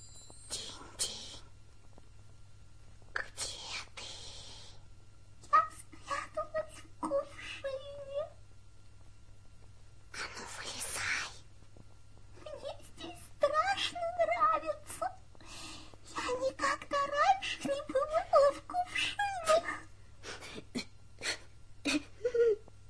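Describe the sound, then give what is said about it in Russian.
Crying and whimpering come in a series of short, faint bursts, soft sobs broken by higher whimpers and gasps, over a steady low hum. “Тише. Ты своим плачем разбудил девочку.”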